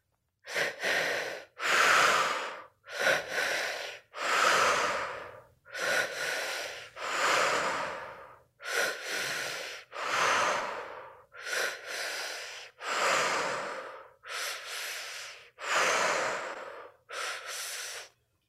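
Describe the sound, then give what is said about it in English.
Slow, deliberate breathing in and out through the mouth during a guided breathwork session. Many long breaths follow each other in an even rhythm, each a soft, airy rush separated by short pauses, with no talking. “And now, when you're ready, let's start the breath together.”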